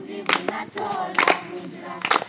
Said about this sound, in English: In a city forest in Kenya's capital, Blinken clapped along with children who serenaded him.